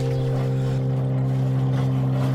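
A boat motor runs steadily on a small lake, giving a continuous low droning hum with strong, even tones that hold without a break for the whole stretch, and no voices.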